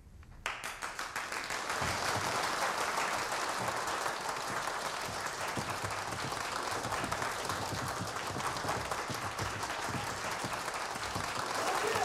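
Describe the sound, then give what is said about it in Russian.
Audience in an auditorium rising to a standing ovation: thick clapping that swells over the first two seconds, then holds dense and steady to the end. “По одному все поднимаются и аплодируют стоя.”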